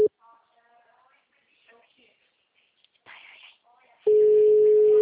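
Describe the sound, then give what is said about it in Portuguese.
Tones from an unanswered phone call: a brief electronic tone at the start, then faint muffled sounds. A steady, loud tone begins near the end and runs to the close. “Tô ligando, ele não tá atendendo.”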